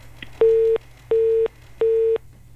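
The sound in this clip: A telephone busy tone sounds after a call cuts off. Three evenly spaced, steady beeps share the same pitch and length.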